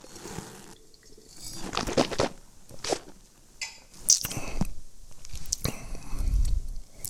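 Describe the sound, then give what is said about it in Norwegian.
Wine being sipped during a tasting of a French wine: a few soft, breathy slurps and wet mouth sounds at irregular moments, fairly quiet, with a low rustle near the end. “Så det er det som er litt gøy når man da driver med Nå må jeg drikke.”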